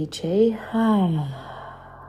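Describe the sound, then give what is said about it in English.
A deep breath is exhaled as a voiced sigh during a stress-relief meditation breathing exercise. It comes in two sounded breaths, the second sliding downward in pitch before fading into quiet. “Deep inhale. Hold it for 5, 4, 3, 2, 1. Exhale, let it go.”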